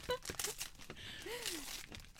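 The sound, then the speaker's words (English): Wrapping paper crinkling and tearing as a gift is unwrapped, with soft, irregular rustles and crackles, quiet overall, and brief vocal sounds mixed in. “Bit of ASMR there as you unwrap it.”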